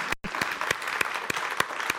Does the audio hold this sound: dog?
no